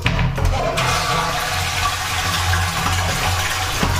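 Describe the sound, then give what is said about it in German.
A toilet flushes with a loud, steady rush of water that holds at an even level for the whole stretch, with no voices over it. “Ich werde auch gleich nochmal spülen. Nicht, dass das nachher nicht weg ist.”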